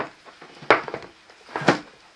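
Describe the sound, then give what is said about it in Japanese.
A plate is set down with two distinct hard clunks about a second apart, each a short sharp knock, with a few faint small clatters between them and no talking. “お皿を置いて、これ よいしょ。”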